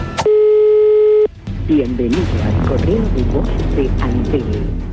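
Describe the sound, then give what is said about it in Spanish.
A telephone line tone sounds while someone calls: one steady, even tone lasting about a second, then stopping as talk begins. “vamos a llamarlo hoy por última vez. Si no atiende, le dejás un mensaje”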